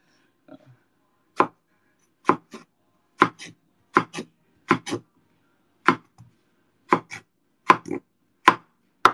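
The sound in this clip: Sharp knife chops on food while dinner is cooked at home, many crisp strikes in an uneven rhythm, often in quick pairs, standing alone with no talk.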